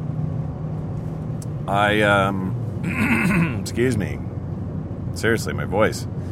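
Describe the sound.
Steady low road rumble inside a moving car, with voices speaking over the engine hum throughout.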